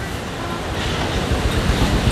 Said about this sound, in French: de l'écume au sommet des vagues. Comme il fait beau, c'est vraiment une vision magnifique. Mais vraiment, c'est une mer un peu déchaînée, quoi.